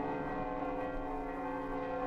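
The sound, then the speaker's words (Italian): A bell at the Italian parliament building in Rome rings out for a presidential election, a steady, sustained wash of layered metallic tones with no clearly separated strokes. “La campana di Montecitorio suona distesa. Suona solo ogni 7 anni per la elezione del Presidente della Repubblica.”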